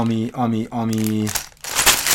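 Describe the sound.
A numbered plastic parts bag from a building set crinkles and rustles briefly, just after a man's voice speaks.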